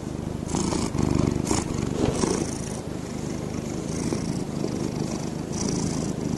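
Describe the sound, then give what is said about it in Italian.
A cat purring in a deep, continuous rumble that carries through both the in-breath and the out-breath. It is steady and fairly loud, with slight rhythmic swells and no talking. “le fusa hanno questa strana particolarità, e cioè che c'è questo suono profondo che c'è sia quando inspirano che quando espirano, quindi è un suono continuo”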